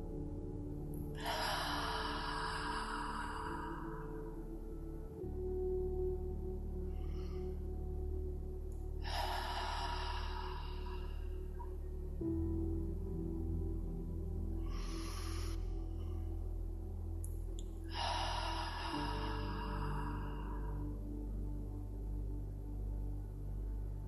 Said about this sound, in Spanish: now you do it at your breath comfort.